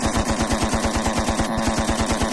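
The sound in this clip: Rapid machine-gun fire sound effect: a steady, evenly spaced stream of many sharp bursts runs unbroken from start to finish at a constant loudness.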